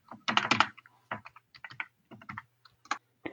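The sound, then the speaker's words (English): A password typed on a computer keyboard, with many quick, irregular key clicks in short bursts and pauses, fairly quiet and with no talking. “Sorry, my computer just went blank. I have to type in my password.”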